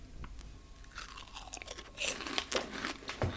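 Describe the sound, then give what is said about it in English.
Crunching bites of a crispy snack dipped in spicy tomato sauce: several sharp, dry crunches at irregular intervals, the loudest in the second half, heard alone. “Just dipping them in absolutely delicious spicy tomato sauce.”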